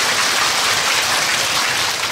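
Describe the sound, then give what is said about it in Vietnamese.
Dense, steady applause from a group fills the whole clip with an even, unbroken roar of clapping and no clear individual claps. It follows a moral story told to children. “Cho một tràng pháo tay đi chứ.”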